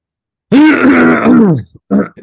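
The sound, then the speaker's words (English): A man clears his throat right into a microphone with one long, rough, voiced rasp, then a few shorter gruff bursts. The sound is loud and close, with no speech. “You should like fully clear your voice and throat into the microphone.”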